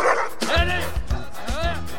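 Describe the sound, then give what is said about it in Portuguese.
A dog yelps and barks while fighting another dog over a bone, giving a few short, high, whining bursts with rough, noisy onsets. “Sai daí, Cusco. Larga o osso do outro cachorro. Sai lá. Vai me morder, animal.”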